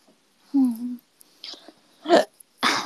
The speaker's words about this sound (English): That was a hiccup, excuse me.